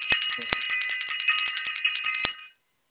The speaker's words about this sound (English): Ring that bell again because we are getting it in.